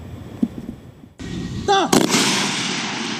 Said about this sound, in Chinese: 精度校验射击科目要求狙击手在规定时间内对百米外的靶标完成5次射击